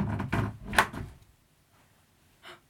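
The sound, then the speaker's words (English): A door swings on a dry hinge that needs oil, giving a rough creaking scrape for about a second that fades out, then a faint brief knock. “You've all got a disgusting door. Can Cosmo not afford to oil your poor door?”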